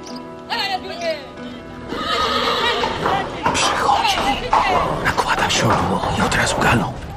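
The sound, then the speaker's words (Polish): A horse neighs and whinnies loudly while being saddled at night in twenty-one degrees of frost, its shrill, wavering calls repeating over hoof clip-clops and shuffling. “Przychodzę nocą i każę siodłać konia. Jak nigdy wcześniej każę siodłać nocą.”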